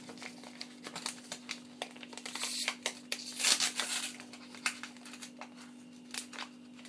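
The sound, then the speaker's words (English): A microwave popcorn package is ripped open by hand, giving bursts of crinkling, tearing packaging rustle that peak mid-way and then thin out, over a steady low hum. “So I'll put apart the package if I can here. It doesn't want to do it in the normal way, so let's rip it open.”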